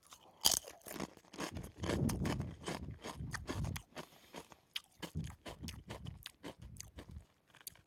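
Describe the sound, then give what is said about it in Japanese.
Crunching bites of spicy, garlicky vegetable soup-curry flavored kettle-fried potato chips, many sharp crisp crunches in irregular bursts with a denser stretch of chewing early on, then quick snaps tapering off. “すごいスパイスの効いた匂いがしますじゃあ一口食べてみます”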